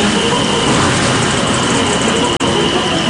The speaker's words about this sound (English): This machine that we press on the man dress shirt.